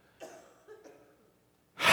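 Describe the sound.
A voice imitates breathing out: two faint, short breaths come first, then a loud, sharp burst of exhaled air at the end.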